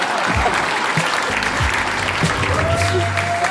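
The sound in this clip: An audience applauds a comedian being introduced at a comedy show. Full, continuous clapping holds throughout, with a few voices mixed into the noise.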